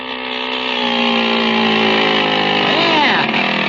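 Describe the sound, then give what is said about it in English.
A small motor on a bicycle runs with a steady, buzzing drone rich in harmonics. It grows slightly louder in the first second, then holds an even, continuous hum throughout. “Boy, it runs keen. Oh, pushes the bike right along, does it?”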